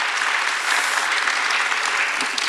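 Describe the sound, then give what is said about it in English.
An audience applauds three artists featured in an exhibition as they join the stage: dense, even clapping that stays steady and fairly loud for the whole moment, with no talk. “I want you to give a big hand to Karen Guthrie here, Jaslyn Kaur, and Michael Rakowitz.”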